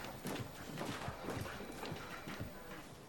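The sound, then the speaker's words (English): Footsteps of a man walking into a bustling office: a faint, regular series of hard steps, many in a row at an even walking pace. “Adam enters the bustling offices of Replay Incorporated, walking past the blonde on reception.”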